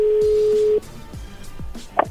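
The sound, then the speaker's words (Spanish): A telephone call being dialled: a steady, level tone holds for under a second and then cuts off, followed by a few short falling electronic tones and a brief higher burst near the end. “Ya colgó. Márcale de nuevo.”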